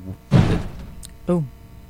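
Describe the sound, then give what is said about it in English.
A door with a worn spring slams shut during a county board meeting: one heavy, booming thud that fades quickly, followed by a brief spoken voice. “That wasn't a bomb. No. That was the door.”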